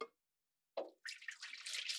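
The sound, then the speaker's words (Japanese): Hot water is poured out and discarded while preparing hand-drip coffee: a short splash opens, a second brief burst follows, then a steady hissing pour runs to the end. “一旦お湯を捨てます。”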